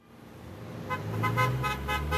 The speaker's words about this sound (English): Car horns communicate support to a small group of hunger strikers in downtown Santa Cruz.